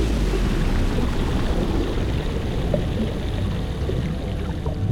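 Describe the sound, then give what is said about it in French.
Underwater rush after diving into the Mediterranean Sea off Ithaca, Greece: a dense, churning hiss of water, loud and even throughout, with no voices. “Et maintenant, on plonge.”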